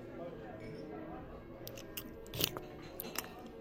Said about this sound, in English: Do you mind if I kiss you? Um, okay.